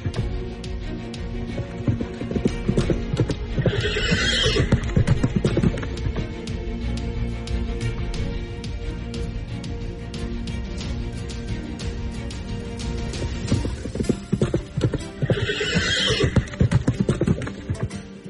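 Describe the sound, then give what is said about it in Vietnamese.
A long-striding blood-sweating horse gallops with a fast, continuous drumming of hooves, and two loud, shrill whinnies break through, one early and one near the end. “Và lúc này tiếng vó ngựa của Hán Huyết vang lên rõ ràng, tải chân dài đặc trưng khiến Trường Sinh không thể nhầm lẫn.”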